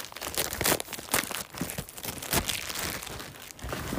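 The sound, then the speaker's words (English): Plastic wrap crinkles and tape tears as new Amazon Echo Buds earbuds are unwrapped from their packaging. A continuous dense rustle is punctuated by several sharper crackling bursts. No talk. “So out of the Amazon box, they come in just a wrap. It's got a little bit of tape on it.”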